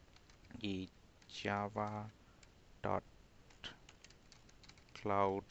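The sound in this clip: Typing a web address on a computer keyboard: faint, irregular key clicks scattered between short bursts of speech, quiet overall.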